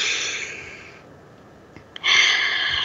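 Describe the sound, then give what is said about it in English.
Deep breaths taken in: a first airy breath that tapers off, a short quiet gap with a faint click, then a second breath that starts abruptly and holds strong to the end. No talk. “Let's breathe that in.”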